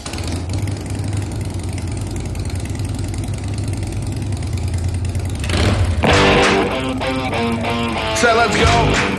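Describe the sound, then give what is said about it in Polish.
An engine rumbles at a steady, low idle, then bursts into a much louder, harsher roar with rough mechanical clatter in the second half. “No to teraz będzie dużo bólu i dużo fajnych dźwięków. Odpalamy silnik.”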